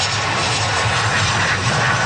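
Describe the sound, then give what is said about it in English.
Airplane engines roar as a plane carrying passengers touches down in Victoria, British Columbia. The sound is a steady, loud and dense rush with no talk. “The flight carrying the 4 Canadians touched down in Victoria, B.C. just after 6 p.m. Sunday.”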